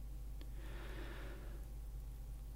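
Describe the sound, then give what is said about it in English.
A single slow, deep breath, heard faintly as a soft breathy rush lasting about a second, over a steady low hum. “Take a deep breath with me and we'll count to 10.”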